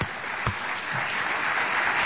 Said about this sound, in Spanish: y ahora vamos a aplaudir a Patricio Barton